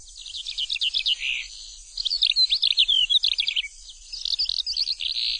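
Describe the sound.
Skylark song imitated by a performer beneath a window in spring: high, rapid, warbling trills in three long bursts separated by brief pauses, with no talk.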